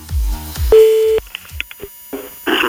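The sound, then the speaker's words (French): A telephone call rings on the line as one steady, mid-pitched tone about half a second long. A few brief clicks and a short burst of line noise follow. “on va le rappeler ce soir”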